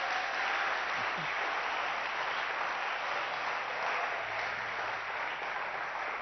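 A church audience claps in acclaim of the Holy Spirit, a dense, even wash of sustained applause that runs without pause from start to finish.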